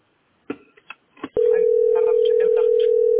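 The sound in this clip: A steady telephone line tone while a caller keeps trying to get through to an office. A few short bursts of voice come first, then the tone starts abruptly and holds one loud, even pitch to the end.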